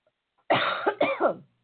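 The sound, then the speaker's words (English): A person coughs in a quiet setting, a few harsh, throaty bursts in quick succession lasting about a second, with silence before them. “I'm sorry, no cough button.”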